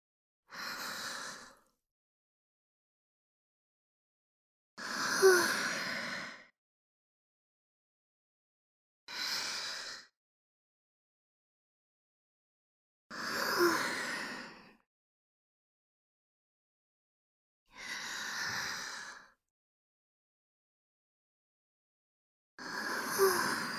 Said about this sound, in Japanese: 深呼吸するね。